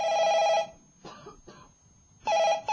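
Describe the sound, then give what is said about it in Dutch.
Telephone ringing on a long-distance call to Morocco: two bright, buzzing ring bursts separated by a pause with faint, scattered noise. “Ik zal ze even bellen, mijn tante uit Marokko.”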